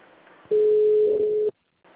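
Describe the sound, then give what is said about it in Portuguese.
A telephone line tone sounds while a call is being transferred to an attendant: one steady, flat beep lasting about a second, then abrupt silence. “Por favor, aguarde. Iremos transferir sua ligação para um de nossos atendentes.”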